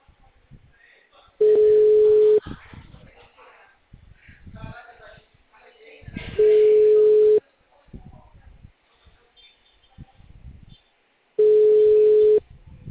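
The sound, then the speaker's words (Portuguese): Telephone line tones on an outgoing call: three long, steady, even-pitched tones, each about a second long and evenly spaced. A person talks in the gaps between them. “tô ligando pra ele na linha pra ver se ele atende.”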